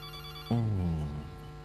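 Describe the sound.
A telephone rings for an incoming call: a single bright, steady ring starts abruptly after a faint lead-in and then fades away, alone without talk.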